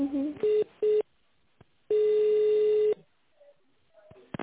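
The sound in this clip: Telephone line tones while a call is transferred: two short beeps, then one long steady tone at a fixed mid pitch, all with the narrow sound of a phone line, followed by faint clicks.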